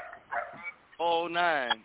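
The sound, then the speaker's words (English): Dogs bark in the background in two short bursts of whiny, yelping barks. The sound is thin and narrow-band, like a phone line. “We got the dogs in the background.”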